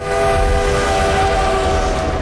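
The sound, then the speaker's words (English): A train rattles past on a track beyond snow-laden fir trees on a moonlit night, heard as a loud, steady rumble under a sustained whistle-like tone that holds level to the end. “The Polar Express rattles past on the track beyond the trees.”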